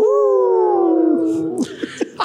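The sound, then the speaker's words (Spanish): People howling in imitation of wolves: one long, loud vocal howl slowly sinking in pitch for about a second and a half, then a few short vocal bursts. “Entonces ahí se despierta el síntoma de lobo. ¡Háganle! ¡Aúllen!”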